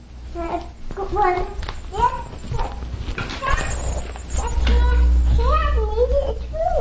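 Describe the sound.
A cat meows in a few rising and falling cries while people talk over and between them in a home.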